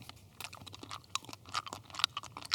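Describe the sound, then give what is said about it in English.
Faint, clicky mouth noises: many small, sharp wet clicks and smacks scattered irregularly over a couple of seconds, with no talk. “Why does my mouth get so clicky? It's literally the last thing in the world you want on a podcast is somebody's mouth noises.”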